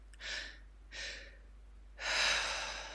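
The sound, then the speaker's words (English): Breathing exercise of a double inhale followed by a long exhale: two short, airy intakes of breath in quick succession, a brief pause, then one longer, louder outward breath that trails off, all faint and without words. “you can do by inhaling, but before you get to the top of your inhale, you take another inhale and then you expel all your air with a long exhale. So it sounds a bit like this.”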